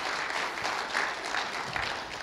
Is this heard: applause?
yes